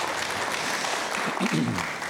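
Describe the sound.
Audience applause welcomes a guest onto the stage: a steady wash of clapping that holds at an even level for the whole short stretch.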